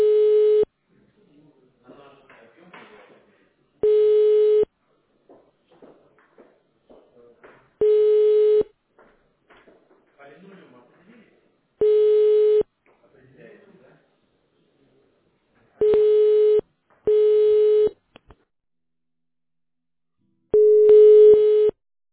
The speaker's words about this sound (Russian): Ваш звонок переводится на сотрудника компании «Европлан».